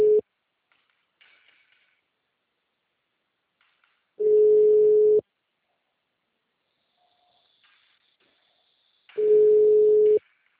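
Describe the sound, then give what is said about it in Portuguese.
Ringback tone of a telephone call before it goes to voicemail: a steady single-pitch tone repeating in loud one-second bursts about five seconds apart, with a clipped ring at the start and two full rings after it. “Sua ligação foi encaminhada ao voicemail.”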